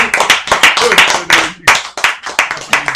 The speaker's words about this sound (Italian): Applausi.